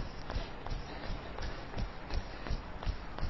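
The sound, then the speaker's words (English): Jogging footsteps land in a steady, even rhythm of soft thuds, roughly three per second, over a constant background hiss. “I'm just going to jog back to where we started.”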